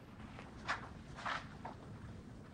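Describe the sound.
Two people stride along a corridor in their nightclothes, with a few soft, faint footsteps sounding over a low background hiss.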